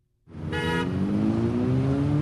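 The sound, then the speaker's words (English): Cars zoom past on a roadside in Yorba Linda, California. A loud engine roar starts abruptly and holds steady as the engine pitch climbs, with a brief horn toot early on. “Some cars zoom past”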